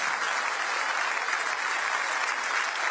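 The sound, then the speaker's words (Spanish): Congregation applause during an evening church service, a dense, even wash of clapping that stays steady and fairly loud from start to finish. “Dele fuerte ese aplauso a Él.”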